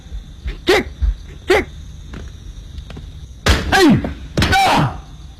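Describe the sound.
A dog barks in several sharp yelps that drop in pitch: two lighter ones early, then two louder, longer bursts close together near the end, with faint thumps in between.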